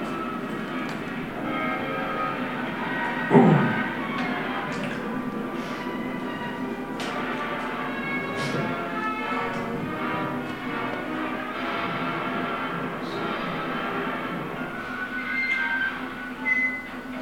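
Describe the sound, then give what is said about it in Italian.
A hellish meteor arrives in a Godzilla film with a dense, sustained roar layered with ringing tones, steady throughout apart from a brief louder burst early on and another near the end. “Quindi ecco qua la meteora infernale. Ecco la meteora che arriva”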